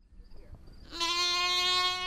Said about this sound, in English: Black Mountain Welsh sheep were imported from the UK in the early 70s.